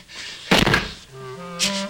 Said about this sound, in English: sneaks up to the greenhouse, huffing and puffing. He slams the door shut.